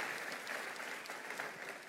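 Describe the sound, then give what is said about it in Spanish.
Congregation applause fills a church, a dense, steady wash of many hands clapping at an even loudness for the whole two seconds, with no voices on top. “Un aplauso a la palabra del Señor. Amén.”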